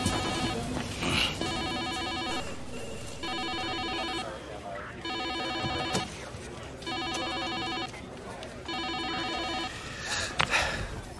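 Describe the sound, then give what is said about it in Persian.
A telephone rings at an emergency call centre: five evenly spaced bursts of bright electronic trilling, fairly faint, repeating over a low background hum. “دو ساعت زنگ میخوره، بردار دیگه.”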